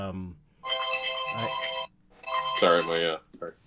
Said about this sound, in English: my alarm went off. Oh, that's weird. Travis Louie. I thought it was my phone. Travis Louie's calling, FaceTiming me.